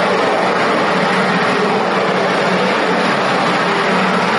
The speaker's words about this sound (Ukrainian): Це звуки українського FPV-дрона на полігоні